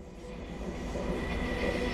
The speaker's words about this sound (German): ich bin mit dem Zug nach Bad Deutsch-Altenburg gefahren